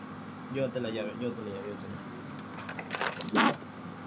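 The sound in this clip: Keys jangle in a short metallic burst near the end, after a stretch of quiet talk.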